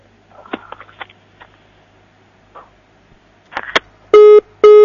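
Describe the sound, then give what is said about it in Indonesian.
A phone call cut off on a call-in line: faint clicks and rustling give way to two loud, steady busy-tone beeps with a short gap between them. “terputus, kita akan mencoba mengangkat penelpon yang selanjutnya”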